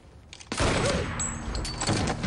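Gunfire in a video game. A sudden loud blast breaks in after a quiet start and carries on as harsh, noisy crackle, with another burst near the end.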